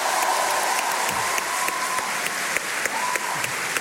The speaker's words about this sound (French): Alors, on peut l'applaudir quand même. Bravo, Audrey.